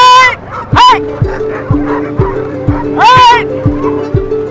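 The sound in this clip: Sled dogs, twelve of them hooked up on the line in Alaska, bark and yelp with a few high, sharp, pitch-sweeping cries over a steady background of voices.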